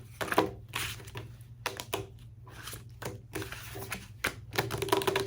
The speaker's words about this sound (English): And I'll add a little bit from this deck, and we will just shuffle these cards.